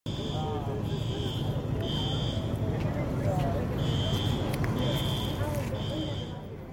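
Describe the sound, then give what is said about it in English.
A hotel fire alarm going off in the middle of the night: loud repeated high-pitched electronic beeps in bursts, with a pause partway through, over a dense rumbling wash of noise. “so that's the sound of the alarm that we actually heard and got in the middle of the night. The sound of the fire alarm was super loud.”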